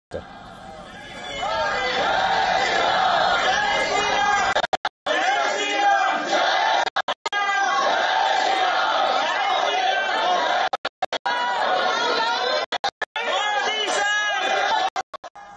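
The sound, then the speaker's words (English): A large crowd of Indian diaspora welcoming the Prime Minister fills the air with dense, loud cheering and chatter that runs almost throughout, broken by a few brief gaps. “Members of the Indian diaspora turned out in large numbers to welcome the Prime Minister.”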